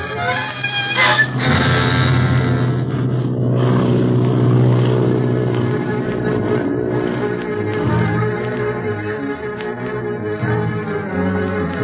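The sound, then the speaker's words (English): An airplane in flight just after takeoff gives a steady, loud engine drone with a buzzing, harmonic-rich tone that holds throughout, with no other sounds over it. “In the air. Wasn't that a swell takeoff”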